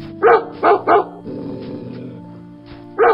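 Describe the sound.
Dogs bark four times in loud, sharp bursts: three come in quick succession, then a pause over a steady low hum, then one final bark.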